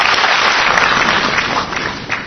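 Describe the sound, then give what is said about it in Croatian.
An audience at the Saint Sava academy applauds a music and stage spectacle with loud, dense, continuous clapping that thins slightly toward the end. “Publika je na Svetosavskoj akademiji burnim aplauzom pozdravila muzičko-scenski spektakl Njegoš Nebomosijan i rediteljke Ivane Žigon.”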